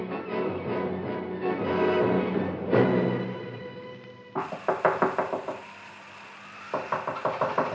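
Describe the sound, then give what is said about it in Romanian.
Hurried, desperate knocking on a hut door in the middle of the night: after a stretch of music, two rapid bursts of loud, sharp wooden knocks, each a quick run of several blows. “Bătăi grăbite și desnădăjduite răsunau în ușa colibii unchiului Tom.”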